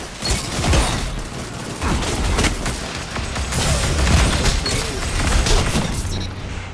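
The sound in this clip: Dense, rapid gunfire from the video game Destiny 2 rattles on without a break. The bursts are loud and continuous, with no clear pauses between shots.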